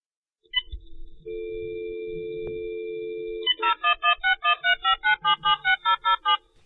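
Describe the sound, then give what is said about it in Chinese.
A landline telephone call being placed: after a brief click, a steady two-tone dial tone hums for about two seconds. Then comes a quick, even run of many loud keypad beeps, with no voices. “不如打个电话俾佢啊！”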